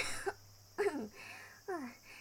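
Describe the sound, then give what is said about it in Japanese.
Coughing after choking: three short, faint coughs, each a harsh burst of breath trailing off, spaced unevenly with quiet gaps between them. “ちょっとむせただけだから。”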